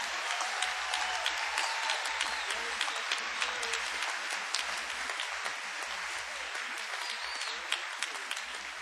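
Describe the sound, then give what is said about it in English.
Audience applause welcoming a female singer onto a concert stage, a continuous wash of clapping at moderate level with scattered sharper individual claps standing out, sustained for the whole stretch. “Please welcome, first of all, a warm hand, if you will, for Miss Valerie Carter.”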